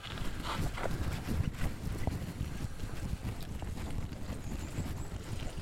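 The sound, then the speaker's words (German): Footsteps splash through a small stream, a rough churning noise of water and wading over constant low wind rumble, with no speech. “Jetzt geht es hier durch einen kleinen Bachlauf.”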